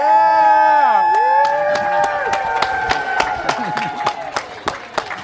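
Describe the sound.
A conference audience stands and cheers with loud, drawn-out shouts of "yay" and whoops, then breaks into many sharp, scattered hand claps that continue to the end.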